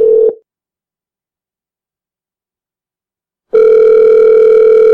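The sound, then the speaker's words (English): A telephone ringback tone sounds on an outgoing call back to a woman with caller ID: a short tail of a steady, loud tone, about three seconds of silence, then the tone starting again and holding steady, with no voices. “I can call her back.”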